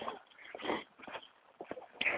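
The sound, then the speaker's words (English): Dogs out with their dog walkers on a morning walk, heard as faint, scattered yelps and snuffling bursts with no clear rhythm. “Dog walkers. Right, they've got a conflagration of dogs back there.”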